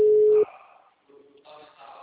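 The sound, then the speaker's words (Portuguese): A telephone busy signal sounds when a called number is engaged: one loud, steady beep that cuts off sharply, followed by quieter, softer talk. “Se ela não atendeu, eu ligo pelo seu. O número está ocupado.”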